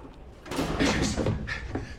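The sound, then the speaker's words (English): An elevator door slides shut with a short rushing sweep, followed by a couple of light knocks, quiet overall. “He presses a button. The door closes.”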